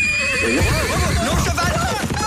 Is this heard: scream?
no